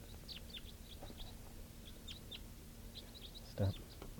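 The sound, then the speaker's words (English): Many short, high chirps and tweets from a flock of wild birds that has just come up, scattered faintly and irregularly over a steady low hum, with one brief, louder thump near the end. “That was a type 4 wild male. And now the whole flock has come up. It's starting to mix around here.”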